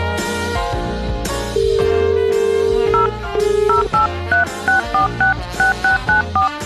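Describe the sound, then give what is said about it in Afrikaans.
A touch-tone telephone number is dialled for a radio call-in. A long steady tone and a shorter one are followed by a quick run of many short, evenly spaced beeps, loud and clear with nothing else over them. “Gaat sommer daar 'n vinnige nommertjie.”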